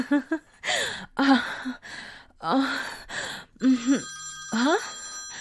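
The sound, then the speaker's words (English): A phone rings near the end with a steady, high electronic ringtone, cutting in among breathy gasps and sighing voices. “Wait, that's my phone.”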